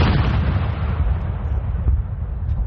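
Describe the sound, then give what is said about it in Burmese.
Artillery gun salute fired by royal troops in London for the Queen's Sapphire Jubilee: a loud, deep, continuous booming rumble that holds steady without clearly separate shots. “ဘုရင်မကြီးရဲ့နီလာရတုနန်းသက်ပြည့်အထိမ်းအမှတ်ဖြစ်နေလန်ဒန်မှာတော်ဝင်တပ်ဖွဲ့ကအမြောက်ပစ်ဖောက်ဂုံပြူတာ”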